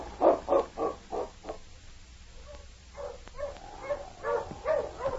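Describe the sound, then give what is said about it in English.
Sled dog huskies bark in a quick run of about five yelps, then fall quiet briefly before another cluster of barks. The sound is faint overall. “Hello, you huskies.”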